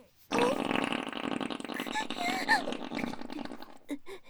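A long, drawn-out fart lasting about four seconds, loud and rumbling with a wavering, buzzing tone, trailing off into a few short sputters at the end.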